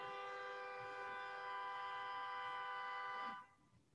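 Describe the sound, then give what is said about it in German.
Car horns honking on the grounds: one sustained, steady horn blast holds for about three seconds and then cuts off, with no voices. “Gehupe auf dem Gelände.”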